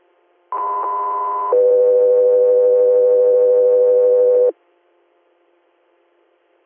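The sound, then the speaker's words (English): Two-tone alert on a radio dispatch channel paging an interfacility transport call: a steady, loud higher tone for about one second, then a steady lower tone for about three seconds, followed by near silence. “stand by for tones.”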